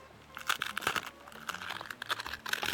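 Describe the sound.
A hard wheat rusk being broken into smaller pieces gives a run of many crisp, dry cracks and crunches, quiet and uneven in rhythm, with no talk.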